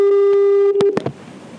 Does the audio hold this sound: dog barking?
no

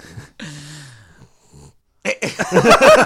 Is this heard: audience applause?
no

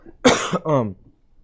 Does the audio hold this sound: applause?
no

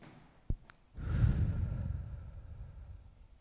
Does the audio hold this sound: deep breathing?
yes

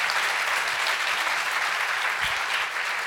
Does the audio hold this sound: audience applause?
yes

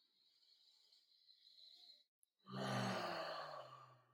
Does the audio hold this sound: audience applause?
no

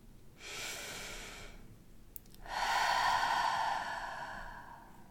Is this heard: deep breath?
yes

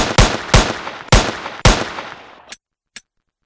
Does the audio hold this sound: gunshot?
yes

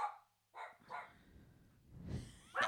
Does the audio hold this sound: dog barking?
yes

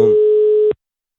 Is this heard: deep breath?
no

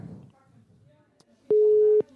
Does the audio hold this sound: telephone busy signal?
yes

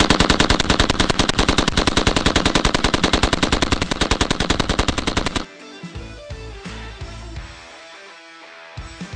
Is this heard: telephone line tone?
no

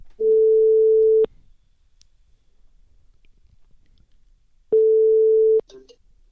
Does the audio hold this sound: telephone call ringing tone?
yes

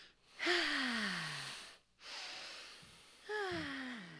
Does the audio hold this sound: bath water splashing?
no

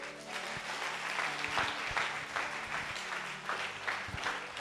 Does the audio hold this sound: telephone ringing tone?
no

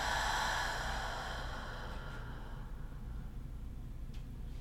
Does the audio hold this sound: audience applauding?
no

